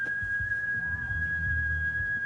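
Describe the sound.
A person whistles one long, level, clear note that holds unbroken from start to end over a soft low rumble.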